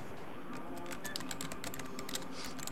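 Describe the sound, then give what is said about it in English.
Rapid typing on a computer keyboard, with many quick, soft key clicks in an uneven stream throughout. “I have to type it again.”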